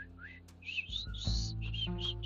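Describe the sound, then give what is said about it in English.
A person attempts to whistle and fails, producing short, breathy, wavering squeaks that start and break off several times. “I can't even whistle, it's terrible, see”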